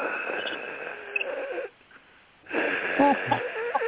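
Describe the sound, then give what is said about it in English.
A voice imitates the labored, wheezing breathing of a man lying stiff under an oxygen mask connected to a tank: two long, raspy, hissing breaths with a short quiet pause between them. “he had the oxygen tank, and she had to, and he was a mask, and he was just laying there, stiff like he was dead, and you could hear him breathing like,”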